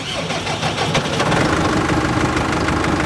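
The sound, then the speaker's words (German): A tractor engine runs with a mower attached during early-morning haymaking, giving a loud, continuous, even drone with a rough mechanical texture and no breaks. “Also wir fahren heute mit dem Mähwerk.”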